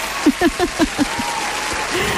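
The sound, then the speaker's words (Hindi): Steady applause for a correct answer, a continuous even wash of clapping throughout. A voice calls out a rhythmic series of short syllables over the start before the clapping carries on alone. “सही जवाब के लिए तालियां तो बनती है कि नहीं?”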